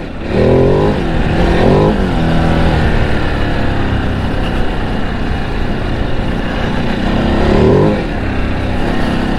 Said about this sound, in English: Loads of power. Nice power on this bike. It's amazing that I'm on a bike which I know nothing about Ducatis.